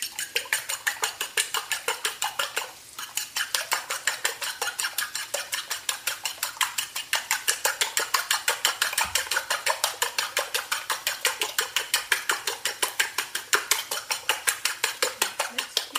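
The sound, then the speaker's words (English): Rapid beating of a mixture seasoned with salt, pepper and cumin seed, a utensil clicking against a bowl in many steady, evenly spaced strokes for the whole stretch, with one brief hitch early on. “salt, pepper, some cumin seed, and beat it.”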